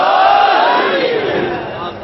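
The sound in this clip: A crowd roars back in unison in answer to a Naara-e-Haidari chant call. The single loud, sustained collective shout eases slightly over about two seconds.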